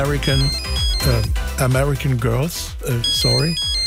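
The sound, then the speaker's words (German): A mobile phone ringtone plays through the whole stretch, a busy melodic tune with steady loudness and no pause. “mein Handy nicht ausgemacht. Moment, ich gehe mal dran.”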